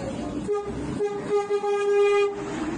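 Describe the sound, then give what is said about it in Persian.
A train horn sounds as the train enters Veresk station in Iran: a few steady tonal blasts, the last held longest, over a low rolling rumble. “الان وارد ایستگاه ورسک شدیم و شما این پل زیبا را دارید میبینید.”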